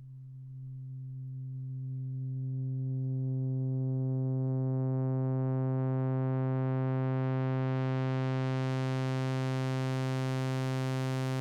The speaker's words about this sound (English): Now we're opening it up into the saw. Yeah. Do it. Now go really slowly back out of the fundamental. So we're actually below the fundamental.